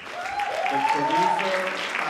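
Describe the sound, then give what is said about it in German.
Applause from a cinema audience after a film premiere bursts out as a dense, steady clatter of many hands, sustained throughout, with a tonal voice or sound rising faintly over it. “Erst dann, einige Sekunden verzögert, bricht der Applaus los.”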